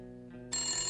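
A telephone rings in a brief, steady electronic tone that jumps sharply louder and brighter halfway through, with no talk.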